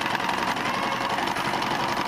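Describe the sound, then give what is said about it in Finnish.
Sewing machine running with a steady, rapid mechanical whir and a fast repeating clatter, holding an even, fairly loud level from start to finish. “Ompelu kone.”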